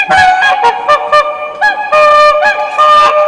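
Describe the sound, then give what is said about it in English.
Swans calling give loud, brassy, trumpeting honks, many in quick succession, with some drawn-out, wavering notes. “When they meet a partner, swans mate for life. Here's what they sound like.”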